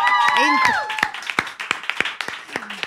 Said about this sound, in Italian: Eroico, così a freddo, difficile, un altro applauso.